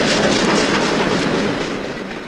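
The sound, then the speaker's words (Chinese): A departing train gives off a loud, dense rumble that eases slightly toward the end. “奥利亚是在火车刚开的一刹那跳下来的”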